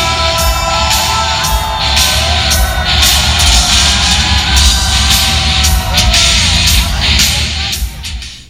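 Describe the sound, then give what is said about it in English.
Loud crowd roar with shouts and whoops at a New York Jets uniform reveal event, sustained and energetic throughout, with voices over the din and fading slightly at the very end. “What you just heard was some sort of promo hype mixtape kind of deal from the Jet uniform reveal last Thursday night.”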